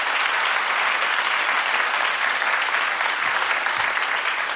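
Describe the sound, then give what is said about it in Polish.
Sustained audience applause for a guitarist being introduced with his band at a concert, a dense, even wash of clapping that stays loud and steady from start to finish with no voices over it. “Wielkie brawa.”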